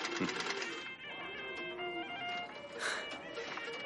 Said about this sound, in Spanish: Ella está cosiendo un pantalón.